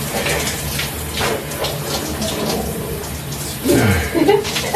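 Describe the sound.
Running water rushes in a shower while a person washes himself, a steady hiss throughout that swells with louder splashing and scrubbing near the end.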